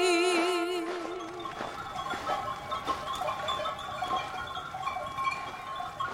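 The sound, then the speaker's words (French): Sheep bleat in a mountain pasture. A wavering, quavering bleat opens over a dense, steady background of sustained tones and scattered soft knocks. “Lorsque je suis avec mes moutons, là-haut dans la montagne”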